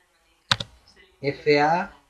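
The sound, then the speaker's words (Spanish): Two sharp keystrokes on a computer keyboard, with Enter pressed, come in quick succession and are followed by a voice talking. “Bien, ya he pulsado Enter, ya se ha quedado seleccionada familia.”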